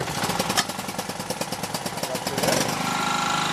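A home power generator starts up during an electricity cut: a loud, rapid chugging engine pulse that settles into a continuous steady running drone partway through.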